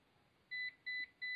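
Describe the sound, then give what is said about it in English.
A phone alert beep sounding three times, short bright electronic tones evenly spaced in a quick regular pattern, quiet and alone. “What the heck was that? That was my phone going off.”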